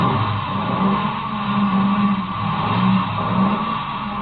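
A car engine revs while the car is stuck in the snow, giving a steady, continuous drone with a low wavering hum that swells slightly a couple of times and keeps an even loudness throughout.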